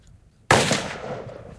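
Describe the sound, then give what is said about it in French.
A single sharp gunshot fired at a pinpoint target during shooting training, a sudden loud crack after a moment of quiet, followed by a decaying echo tail; no talking. “Now he's firing on the pinpoint target. He's firing on the headshot.”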